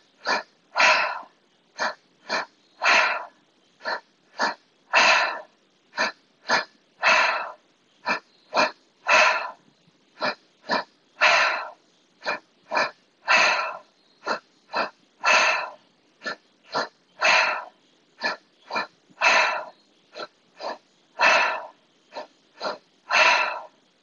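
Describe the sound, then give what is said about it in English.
Deep rhythmic breathing with the belly and chest rising, each exhale pushed out through the mouth. Many rapid, evenly spaced breaths follow one another in a steady pulse with no talking. “You want to make sure that you can feel your lower belly rising, your chest rising, and then the exhale out through your mouth.”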